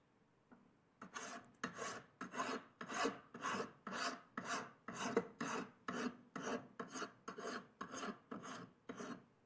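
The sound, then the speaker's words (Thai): A hand file roughs down a metal workpiece with many coarse rasping strokes, each a broad scratchy swell, in a steady, even rhythm with no voices. “ในขั้นของการตะไบหยาบนะครับเราจะตะไบแต่เพียงเท่านี้นะครับเริ่มเห็นตัวของผิวโลหะที่เป็นสีเงินออกมาบ้างแล้วนะครับ”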